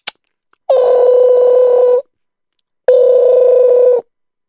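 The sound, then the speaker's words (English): A telephone call goes out: a sharp click, then two long, steady, buzzing ring tones, each followed by a pause, with no voices. “Let me call him up.”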